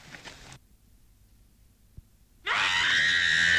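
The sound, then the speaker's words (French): A woman screams suddenly after near silence, her voice sweeping up into a loud, high, sustained shriek that holds steadily to the end. “Ça sert à rien de crier”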